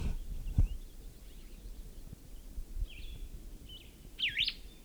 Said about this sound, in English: Male singing while nest building.